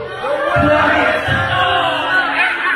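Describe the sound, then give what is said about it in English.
People yelling at a wrestling event form a loud, continuous mass of overlapping voices that stays dense and unbroken throughout. “you just hear people yelling.”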